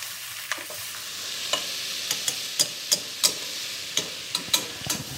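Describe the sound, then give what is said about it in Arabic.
Meat sizzles in a pot with onion and garlic, a steady bright frying hiss. Many sharp scraping knocks from stirring recur irregularly throughout, and no voices are heard. “هجيب اللحمه وانزل بيها في في الحله مع البصل والثوم”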